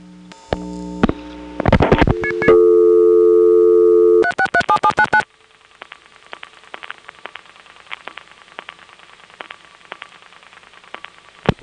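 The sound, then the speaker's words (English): Telephone reorder tone from an exchange after a trunk between a step-by-step office and an ESS office resets: several steady electronic tones, then a short burst of rapid pulsed beeps, followed by faint crackling line static with scattered clicks. “the trunk from the Smyrna step to the Smyrna ESS resets and thinks that I'm dialing before it's ready to take the digit. And so it dumps me to a reorder.”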